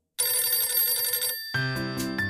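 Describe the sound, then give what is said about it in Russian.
A telephone rings loudly and alone: first a rapid, bell-like trilling ring, then a second, differently pitched electronic ring pattern. “У меня зазвонил телефон.”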